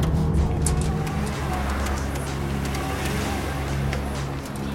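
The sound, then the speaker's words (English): Traffic on a busy city boulevard, with cars passing behind a street payphone. A continuous low rumble sits under broad hiss, with a few faint clicks and no clear individual passes. “He leans against the phone stand as cars pass along the boulevard behind him.”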